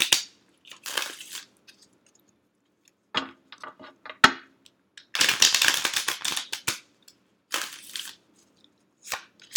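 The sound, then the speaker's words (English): Tarot cards are dusted off and taken out of their case, making irregular bursts of papery rustling, scraping and sharp little clicks separated by short silences. “Sorry, I'm dusting my cards off out of my case because I was gone for a little bit.”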